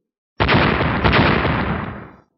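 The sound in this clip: A loud explosion bursts in abruptly as a broad roaring blast, surges once more briefly, then rumbles and fades away over about two seconds.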